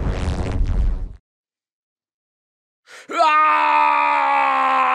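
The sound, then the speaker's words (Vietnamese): A piercing scream breaks a quiet summer noon. After a loud voiced outburst and a stretch of silence, a brief gasp leads into a long, loud, steady high cry. “Tiếng gào thét thất thanh xé toạc không gian tĩnh mịch cuối buổi trưa hè”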